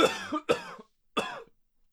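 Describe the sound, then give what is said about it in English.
Coughing from someone with apple pie stuck in the throat: three harsh, fairly loud coughs. The first two come close together and the third follows a short pause, with no talk. “I think I've got a bit of apple pie stuck in my throat.”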